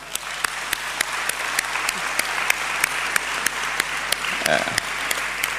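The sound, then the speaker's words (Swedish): Applause from an audience welcoming a guest at a morning gathering: steady, dense clapping sustained throughout, with individual sharper claps standing out from the wash. “Helen Sjöberg, vi kan väl välkomna henne med en applåd”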